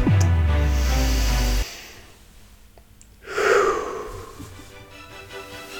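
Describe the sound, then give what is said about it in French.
A deep breath drawn in, heard as one airy, hissing inhale of under a second. It follows a loud tonal passage that cuts off abruptly, then a short quiet gap. “Et pourquoi pas commencer tout ça avec une grande inspiration.”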